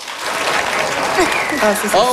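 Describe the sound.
Audience applause used as a show-of-hands vote in a lively crowd: a brief burst of dense clapping with voices calling out over it, staying fairly loud across its short span.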